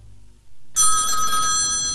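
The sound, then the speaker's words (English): A telephone rings at 5 in the morning, breaking a low, quiet hum with a loud, steady, bright electronic ring that keeps going without a pause until the end. “At 5 in the morning, the phone woke us up.”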